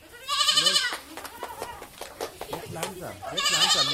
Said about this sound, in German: Ich kenne das Zicklein, das ich verspeisen will, persönlich und ich gehe in den Stall, schaue nach, wie es Paula geht.